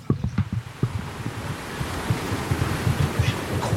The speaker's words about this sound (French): Ouais, bravo, c'était la mer.